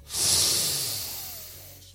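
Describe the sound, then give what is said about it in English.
A single deep, slow breath drawn in as part of a calming relaxation exercise. It is a breathy hiss that swells quickly, holds, then slowly tapers away, heard alone with no talk. “Now close your eyes, and let's take one last deep, peaceful breath in.”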